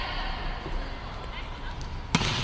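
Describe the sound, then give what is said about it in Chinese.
A volleyball serve at a professional match sounds as a single sharp hit near the end, heard over constant crowd noise in the hall. “山东队四号孙宏云继续发球”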